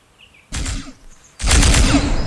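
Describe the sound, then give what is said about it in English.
A toy gun plays a video-game gunshot sound effect: after a faint warbling tone, two bursts of harsh electronic gunfire, the second starting louder and lasting longer. “That's a video game sound effect. You just press the button. First of all, you said listen to it. Nothing comes out. That's not what a gun does. That's what a toy does.”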